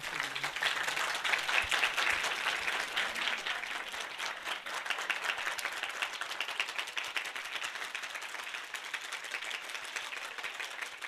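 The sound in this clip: An audience claps along during a Persian hymn gathering, a dense, steady wash of many hands that stays loud and even throughout.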